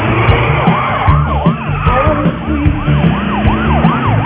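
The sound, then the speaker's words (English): A police car siren yelps in rapid, repeated rising and falling cycles over a heavy engine rumble during a car chase. “Police car chasing us. We're in a fucking car chase.”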